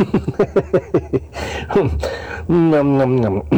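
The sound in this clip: Vocal warm-up to tune the throat before singing: a quick string of short voiced syllables, then a breathy rushing stretch, and finally a held, steady sung tone that carries on to the end.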